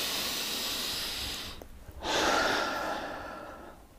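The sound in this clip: A deep breath during a relaxation exercise: a long, airy breath, a brief pause, then another long, soft, hissing breath that slowly fades. No one talks.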